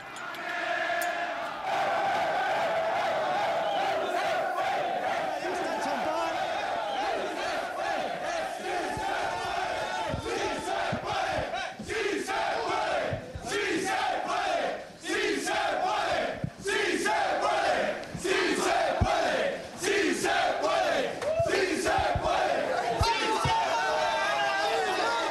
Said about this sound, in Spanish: Ese es el sonido del vestuario del Alcorcón, del pasillo que lleva el vestuario. Siguen cantando los jugadores.